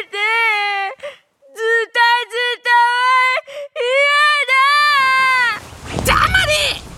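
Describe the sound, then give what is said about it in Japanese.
A voice performs Kumanon, a bear cub character, crying in fear: several drawn-out, high, meow-like wails separated by short gaps, followed by a noisy, rushing burst at the end. “ガリトラの鋭い爪を見たくまのんくんは怯えきって泣き出してしまいました”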